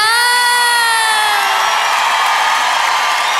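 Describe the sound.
A crowd cheering and applauding for a singer: loud, sustained, high-pitched screams and whoops that run unbroken for over three seconds.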